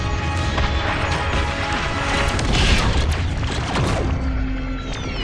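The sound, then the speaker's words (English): A blast streaks past a spaceship flying through dense space debris: a loud, continuous rumbling roar packed with crackling impacts that swells slightly midway, then eases. “A blast goes right past her, sending her spinning out of control.”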